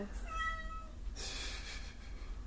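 A domestic cat gives one drawn-out, faint meow with a clear harmonic tone, set over a low background hum with some soft breathy noise after it.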